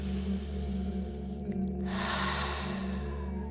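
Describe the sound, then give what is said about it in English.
A deep breath drawn in through the nose and let out through the mouth, a soft, airy rush of breathing that swells into a broader hiss about halfway through, over a steady low hum. “Take a very deep breath. In through the nose, out through the mouth. Everybody breathe with me”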